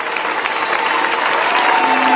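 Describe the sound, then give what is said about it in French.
A church audience claps together in praise: dense, sustained applause from many hands, loud and steady throughout with no clear pauses. “Let us clap to the Lord. Acclamons le Seigneur.”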